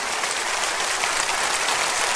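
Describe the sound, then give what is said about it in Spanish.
Congregation applause of thanks during a Spanish-language church sermon: a steady, dense wash of clapping that holds evenly through the whole stretch, with no voices on top. “Dele un aplauso de agradecimiento.”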